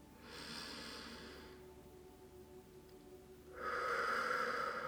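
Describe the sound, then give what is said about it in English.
Deep belly breathing during a meditation: a long, slow, airy breath, a quiet pause, then a stronger, rushing breath. The breaths are soft and steady, and no voices are heard. “Should sound a bit like that. So this breath will be consistent throughout this entire meditation.”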